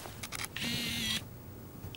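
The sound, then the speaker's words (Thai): A camera shutter fires while a family photo is taken at a birthday celebration: one brief mechanical burst, faint and alone, after a few soft clicks. “คุณเจ้าคุณนายเจ้าฉันถ่ายรูปครอบครัวให้นะคะเอาสิคะ นั่งดีๆนะ เอาล่ะ”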